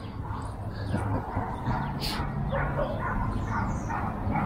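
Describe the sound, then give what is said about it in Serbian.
Dogs bark and yip while playing in a dog park, short scattered barks over a steady outdoor background hum. “a u dog parku dole se psići igraju vesele sa laveži”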